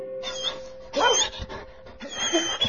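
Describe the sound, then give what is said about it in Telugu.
A puppy yips and whimpers while playing on a front-yard lawn, giving a few short, high, thin bursts of sound with brief gaps between them. “Praveen తన కుక్క పిల్ల జాలీతో వాళ్ళ ఇంటి ముందు లాన్లో ఆడుకుంటున్నాడు.”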